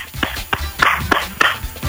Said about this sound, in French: est-ce que t'as ton téléphone dans ta main? Ouais. Et allez, tape-le-toi sur la tête.